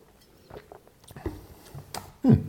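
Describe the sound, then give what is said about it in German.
Wine being tasted, heard as a few soft, wet mouth and sipping noises in near quiet, ending on a louder, brief slurping burst. “Ich habe auch noch nicht gekostet, ich muss mal kurz kosten.”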